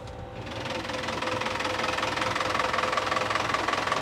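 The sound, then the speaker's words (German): A 100 hp four-cylinder Yanmar boat engine runs with a fixed propeller, giving a continuous, fairly quiet rumbling drone with a fine, rapid knocking texture that stays even throughout, with no voices. “Was für eine Maschine ist das hier? Das ist ein 100 PS Vierzylinder Yanmar.”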